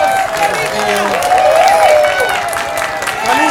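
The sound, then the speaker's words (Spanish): Applause and crowd noise from the audience of a rock radio show, steady clapping mixed with voices throughout the short stretch. “¡Un aplauso!”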